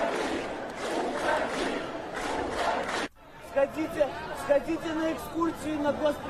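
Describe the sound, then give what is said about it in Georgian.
Protest participants chant slogans as a crowd in a loud, rough mass of voices for about three seconds, then the chant cuts away and a single voice speaks in short bursts over background noise. “წადი ამ შეძახილებს სკანდირებდნენ საპროტესტო აქციის მონაწილეები.”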